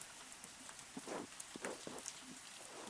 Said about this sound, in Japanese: こんな雨の日ならなおさら。